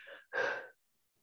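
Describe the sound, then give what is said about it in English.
A deep breath out, heard alone: a short, soft breath followed by a fuller, louder exhalation that fades into silence. “Breathe out, really breathe out to the furthest place of the whole of the cosmos.”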